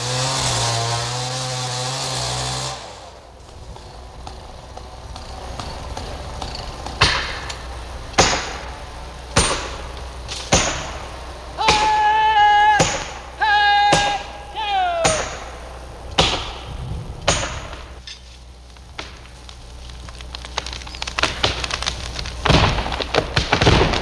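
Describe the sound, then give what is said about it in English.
A giant Douglas fir is felled in old-growth forest: a chainsaw whines briefly, then many loud, irregular chopping and hammering strikes follow, some with a ringing metallic edge. “A sound which many of us hope will become a sound of the past in the remaining old-growth forest, felling a giant Douglas fir.”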